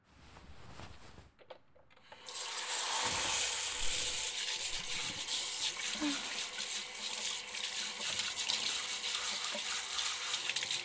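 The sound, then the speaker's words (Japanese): Hot water gushing from a tap during a hair wash, a loud steady hiss that begins abruptly after about two seconds of quieter handling sounds and continues unbroken to the end. “とにかくお湯出します。”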